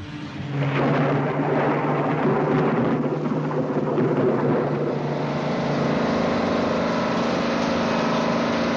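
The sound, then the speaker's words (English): A jeep's engine rumbles as it rounds a corner heading away from the foothills. It is a loud, steady, broad roar that holds almost unbroken for the whole stretch. “Jeep rounds a corner heading away from the foothills.”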